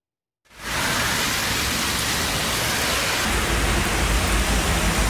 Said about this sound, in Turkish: Yurttan sağanak manzaralarına bakalım.